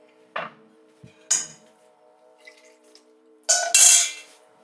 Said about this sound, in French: Et je continue à tourner euh, ma, ma sauce pour que ce soit bien homogène, pour que la sauce soit bien homogène et qu'il n'y ait pas de grumeaux dedans.